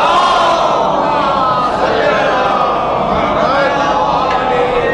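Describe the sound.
Crowd at a religious sermon roaring the Naara-e-Haidari slogan in unison, a loud, sustained mass of shouting voices holding strong throughout.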